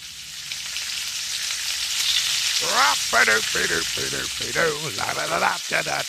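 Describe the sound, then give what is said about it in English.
Bacon fries in a pan with a continuous, crackling hiss, and partway through a voice starts talking over the sizzle. “Right, bacon's on.”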